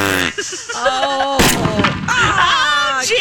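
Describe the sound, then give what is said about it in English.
A single gunshot cracks out, loud and abrupt, in the middle of ongoing talk. “you didn't want me to shoot. Oh, you didn't want me to shoot it.”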